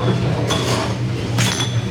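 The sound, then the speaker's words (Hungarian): Two bright glass clinks ring out over a steady background hum as glass jars are filled by hand with apricot jam. “Láthatjuk, hogy hogyan töltik kézzel egyébként meg az üvegeket. Éppen most barackekvár kerül az üvegekbe, és rákerül a tető, és megfordítják az üvegeket.”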